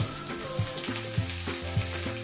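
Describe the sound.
Food frying in a pan sizzles as a steady, dense crackle, with a few soft knocks recurring at a regular pace throughout.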